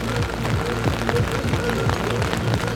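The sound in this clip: Rain falls at an outdoor cyclocross race in a city-hill park, a steady dense hiss of drops on surfaces that stays at an even level throughout.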